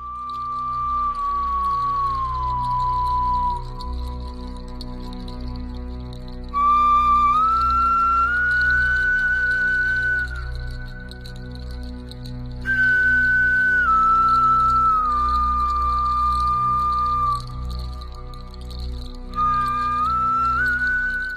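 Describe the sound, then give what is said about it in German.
An ancient flute made from a bear's thigh bone plays a few long, high, whistle-like phrases, its sustained notes gliding and sliding in pitch, with short pauses between phrases. “und wurde aus dem Oberschenkelknochen eines Bären hergestellt. Und das Besondere hier im Museum ist, ein Musiker hat eine ganze CD mit Musik aufgenommen, die er mit dieser Flöte spielt.”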